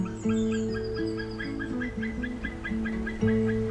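A courting bird pair's duet call, from a species whose male has a pale head and yellow beak: steady tonal notes that step up and down in pitch, overlaid by quick, regularly repeated higher chirps, continuous and fairly loud.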